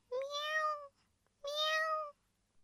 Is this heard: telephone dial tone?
no